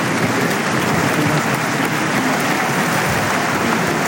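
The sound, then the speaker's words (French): A bullfight crowd on its feet applauding after the bull falls: dense, sustained clapping that stays loud and even throughout, with no clear voices standing out. “Les gens debout pour acclamer la très très grande performance de Daniel Luque aujourd'hui.”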